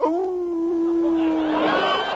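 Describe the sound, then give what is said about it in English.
A dog howls in one long, loud, sustained note that holds a steady pitch for about two seconds and grows rougher and breathier toward the end. No talking is heard. “Now, what in the devil are you howling about”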